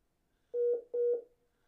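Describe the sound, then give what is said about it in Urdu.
Two short, faint electronic tones sound at a steady mid pitch as a caller's phone line drops during a radio call-in. Each tone is briefly broken in the middle, and there is no talk. “Line drop ہو گئی line drop ہو گئی ہے کوئی بات نہیں ہے آپ دوبارہ ہمیں کال کر سکتے ہیں”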